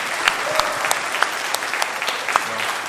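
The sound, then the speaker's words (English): Audience applause for graduating seniors at a congratulatory gathering: a dense, steady wash of many hands clapping at an even level throughout, with no single voice standing out. “Could you give these guys a hand, and then I'm going to pray for them.”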